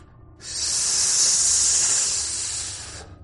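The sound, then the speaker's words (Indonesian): A huge snake hisses in a single long, steady, airy hiss, loud and sharp, swelling in and fading out over about two and a half seconds with nothing else heard. “Ular itu mendesis dan kian mendekat, membuat Dina”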